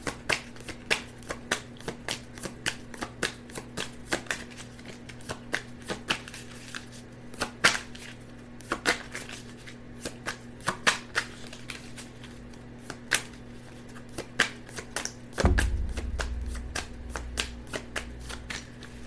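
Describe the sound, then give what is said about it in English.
Tarot cards being shuffled and pushed back into the deck make many rapid, crisp flicks and riffles in a steady, busy rhythm, ending with a denser, heavier rustle. “These cards do not want to go back in, and this is way too many. The Six of Swords is the one on the top that doesn't want to go back in.”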